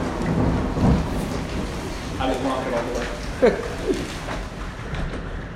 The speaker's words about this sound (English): I may have to preach longer tonight just until this storm's over, guys.